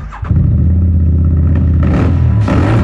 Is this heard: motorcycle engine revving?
yes